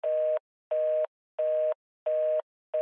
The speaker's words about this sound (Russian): в трубке раздались короткие гудки